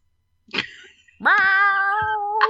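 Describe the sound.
A voice imitates a cat meowing: a short yelp, then a long, drawn-out meow held at a steady pitch, loud against silence.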